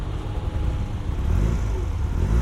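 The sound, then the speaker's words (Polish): A car engine is given gas, a dense, low rumble that is continuous and loud and builds slightly toward the end, with no talk over it. “Daj mu trochę gazu.”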